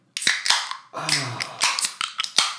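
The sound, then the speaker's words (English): Beer cans being cracked open: several sharp clicks and pops in quick succession, one followed by a short fizzing hiss, with brief gaps between them. “Now, get ready for some ASMR as we crack these bad boys open.”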